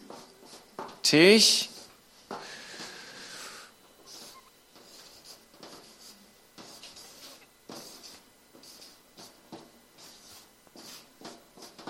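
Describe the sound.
Handwriting is redone after something was crossed out: many short, scratchy pen strokes repeat irregularly, with one louder, squeaky burst near the start.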